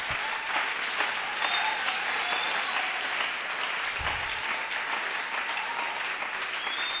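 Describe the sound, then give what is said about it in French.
Sustained audience applause after a moving story, a dense, even wash of many hands clapping that holds at steady loudness for the whole stretch, with no voices on top. “On peut acclamer.”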